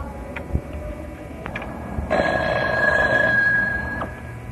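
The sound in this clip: A telephone rings with one sustained, bright electronic trill lasting about two seconds. A few faint clicks come before it, and there is no talking.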